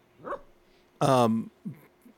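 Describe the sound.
A dog barks: one loud, drawn-out bark set among a few shorter, quieter yips.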